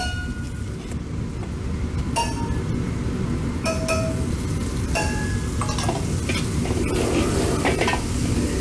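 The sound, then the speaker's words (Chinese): Loud, steady sizzling as beef is stir-fried with bean paste, ginger, celery, garlic shoots and dried chilies, with stirring and a few sharp metallic clinks over the continuous frying noise. “然后加入剁好的豆瓣酱炒香，把牛肉炒出颜色。豆瓣酱炒香之后，陆续加入生姜、芹菜、蒜苗和干辣椒，”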